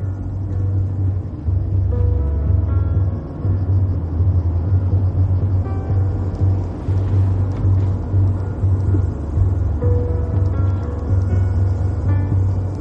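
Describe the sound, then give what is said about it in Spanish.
Car driving along a road in pursuit of another car, a steady, loud, low engine rumble that drones continuously with only slight wavering and no other distinct sounds. “corre a su coche. Luego va por una carretera persiguiéndole a decenas de metros de distancia.”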